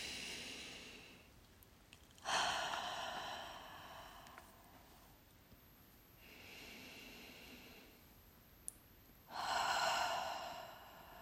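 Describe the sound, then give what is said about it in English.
Slow, deep breaths in and out during a guided breathing exercise. A few long, airy breaths are separated by quiet pauses, and the whole sequence is faint. “So just a few more deep breaths with me, guys.”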